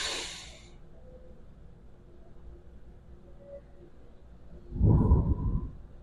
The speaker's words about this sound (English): So with that being said, let's take our commemorative breath and be here.